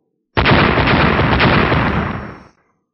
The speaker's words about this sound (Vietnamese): Ba tiếng nổ đồng thời vang lên